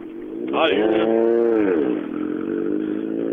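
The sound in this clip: Racing motorcycle accelerating on a gravel track: a loud engine roar whose pitch sweeps sharply upward, holds high, then drops away into a steady lower drone.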